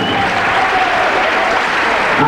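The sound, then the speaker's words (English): Dense, loud audience applause for a DJ at a live event, a steady wash of many clapping hands that holds at an even level for the whole stretch with no talk over it. “Yes, give it the clap for the DJ.”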